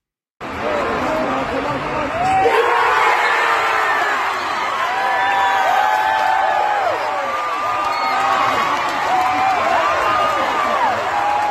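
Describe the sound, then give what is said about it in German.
Stadium crowd erupting in loud cheers after the last penalty kick of a football match shootout. The roar starts suddenly and stays sustained and dense, with whoops and yells throughout. “Also es war ganz besonders und der letzte Strafstoß, der klang dann folgendermaßen, zumindest aus der Sicht von Annika.”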